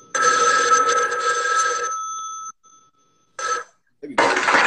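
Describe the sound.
Telephone ringing for an incoming call to a radio show, a long, bright trilling ring, then a pause and a second, shorter ring burst.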